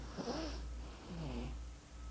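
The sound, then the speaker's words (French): Two soft drawn-in breaths during a breathing exercise, an abdominal inhalation followed by a subclavian upper-chest one, each a faint airy rasp over a low steady hum. “Inspiration abdominale et par la suite sous-clavière en deux battements cardiaques. On y va.”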